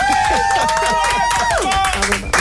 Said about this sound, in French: Bah là, tu m'applaudis, on dirait c'est mon anniversaire.